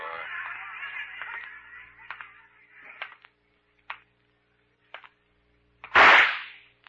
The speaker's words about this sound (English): You ought to be more careful with that gun, Pete. You almost hit me.